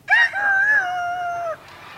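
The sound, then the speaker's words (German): A human voice imitates a rooster crowing in one loud, drawn-out call. The call lasts about a second and a half, has a wavering, warbling pitch, and is followed by quiet. “Und Hähne auch, wie ihr hört. Tierstimmen sind nämlich international.”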